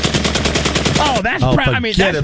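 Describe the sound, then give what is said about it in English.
Rapid semi-automatic gunfire from a gun with a forced reset trigger: a fast, even string of many loud sharp shots, then a man speaks after the firing stops. “It's a mechanism that forces a trigger to reset this gun. Look at this gun. My lord. Allows for faster follow-up shots in a semi-automatic mode.”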